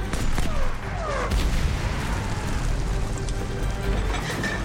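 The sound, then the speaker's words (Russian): A tank cannon shell is fired during a Soviet tank attack scene in a war film, with a deep boom surging out of a dense, steady roar of battle noise that stays loud throughout. “Танк останавливается. Наводчик прицеливается, из дула вылетает снаряд.”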